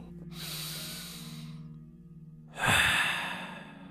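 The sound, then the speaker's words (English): A deep breath taken during a guided meditation: two long, airy breath sounds with a pause between them, the second louder and sharper, with no talk over them. “Now take one last breath with me.”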